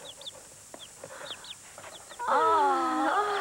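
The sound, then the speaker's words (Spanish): Chickens cluck, with faint short peeps at first, then a loud, sustained, harmonic fowl call that fills the last second or so. “Son mis pollos. Mira.”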